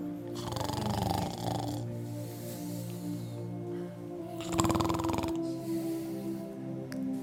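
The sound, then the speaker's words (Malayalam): Snoring, faint and rasping: two drawn-out snores with a rough, throaty rattle stand out, with quieter breathing in between. “ഞാൻ പ്രസംഗിക്കുമ്പോൾ മോളിരുന്ന് പുറകെ കൂർക്കം വലിക്കുമോ ഇല്ല പക്ഷെ യേശു പ്രാർത്ഥിച്ചുകൊണ്ടിരിക്കുമ്പോൾ ഇവർ പുറകെ കിടന്ന് കൂർക്കം വലിക്കുമോ”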